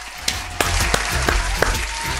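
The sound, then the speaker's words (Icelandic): Hand clapping for a man, with a few slow, evenly spaced sharp claps over a steady wash of background noise, and no clear talk. “ég verði eiginlega bara að klappa fyrir hann, sko”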